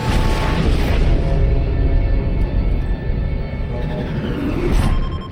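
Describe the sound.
Spaceship jumping through hyperspace: a loud, sustained roaring rumble that holds steady, dips slightly partway through, then swells again toward the end.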